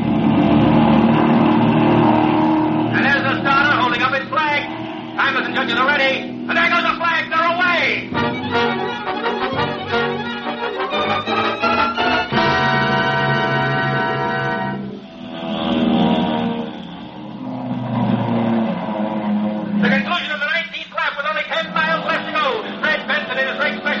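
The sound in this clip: Racing airplane engine roaring during the Thompson Trophy air race, with plane number 7 in the race; the loud engine drone runs almost continuously, dipping briefly midway before surging back.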